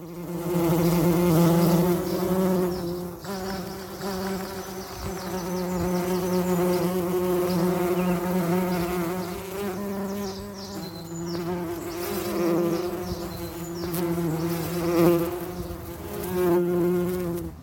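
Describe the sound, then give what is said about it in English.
Honeybees buzz while sipping nectar and building hives, a loud, continuous, layered drone with a steady low hum and gently wavering intensity, heard alone without voices. “It was, of course, the familiar buzzing of bees going about their daily habits of sipping nectar, building hives, raising their young,”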